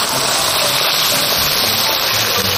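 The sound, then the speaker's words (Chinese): Hot water gushes into a pot of stir-fried beef made from tough cuts such as brisket and tendon. It makes a loud, steady, hissing rush that continues without a break throughout. “咱们这会儿炒的差不多了，一会儿窍门呢咱们再揭晓啊。加入热水，”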